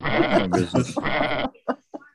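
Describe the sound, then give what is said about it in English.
Goats and rams from a lawn-mowing herd that escaped in Southfield, Michigan bleat: several long, quavering, wavering cries, followed by two short, clipped calls. “lawn mowing goats and rams escape neighborhood”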